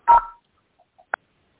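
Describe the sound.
Telephone keypad tones sound as star and 6 are pressed: two electronic beeps, the first longer and louder, the second short and sharp, separated by near-silence with faint blips.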